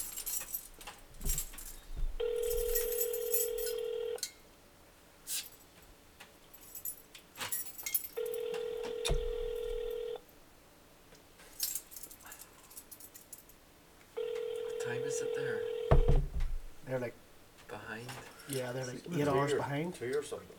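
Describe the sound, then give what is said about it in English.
Ringing tones on a call to a brewery's automated phone menu and voicemail: three long, steady buzzing rings separated by pauses, with people talking between them. “Fucking voicemail, man. You need to get speaking to somebody.”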